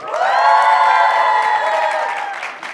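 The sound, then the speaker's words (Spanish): An enthusiastic live audience cheering on the Tec de Monterrey campus in Querétaro: a loud, sustained mass of shouting and whooping voices that holds steady before tapering slightly at the end. “Con un público muy, muy entusiasta y pues les agradecemos su presencia, espero que lo disfruten.”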